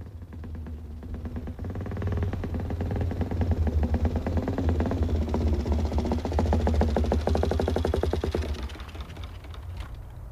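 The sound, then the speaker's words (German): A motorcycle engine in a radio drama runs with a rapid, rhythmic putter over a low drone. It holds steady for several seconds, then cuts out near the end and leaves only a faint hum. “stieg von seinem Motorrad und wunderte sich über die plötzliche Stille”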